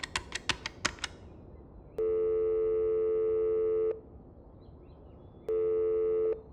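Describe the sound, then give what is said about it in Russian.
Long ringback tones on a telephone line: two steady, evenly pitched beeps of about two seconds each, separated by a pause, preceded by a quick run of sharp clicks at the start. “Долго слушал длинные гудки. Дома его нет.”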